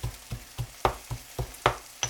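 Garlic and onions frying in a pan give a soft sizzle broken by quick, evenly spaced bursts of stirring in a steady, rapid rhythm. The sound is fairly quiet, with no voices.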